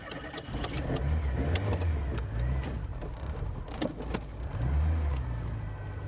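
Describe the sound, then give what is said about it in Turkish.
A car engine starts and runs while the car reverses on a street at night, a low droning rumble that swells and eases, with sharp clicks and knocks scattered over it. “Arabasını büyük bir sıkkınlıkla çalıştırarak geri gitti.”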